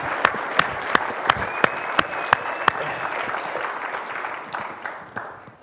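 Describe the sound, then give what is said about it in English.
Congregation applause in church, many hands clapping steadily with a few sharp, distinct claps standing out early on, gradually thinning and fading toward the end. “to put our hands together, not for Matt, but for God, to say, yay, God”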